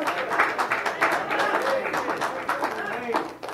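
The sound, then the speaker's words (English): An audience claps its hands in continuous applause, a dense patter of hand claps that stays steady throughout, with voices mixed in. “the audience want to clap their hands”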